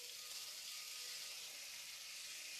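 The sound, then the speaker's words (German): Bacon-wrapped asparagus fries in a pan, giving a faint, steady, hissing sizzle that stays even from start to finish. “unseren Spargel jetzt schon mal eingewickelt und hauen den mal hier in die Pfanne. Und hoffen, dass der Speck da irgendwie dran bleibt.”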